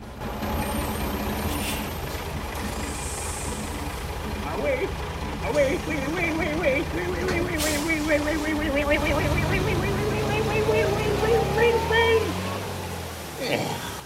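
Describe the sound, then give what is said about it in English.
A nearly empty bus pulls up, its engine rumbling continuously as it slows, with high squealing brake tones sweeping through the middle and a low engine note near the end. “A nearly empty bus pulls up a couple of yards away from the outhouse.”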